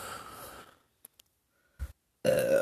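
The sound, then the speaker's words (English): A voice imitates a sloth farting with one short, low, blurting burst, preceded by a couple of faint clicks after talk fades out, and followed by loud voices again. “Can you imagine a sloth farting and be like... And then...”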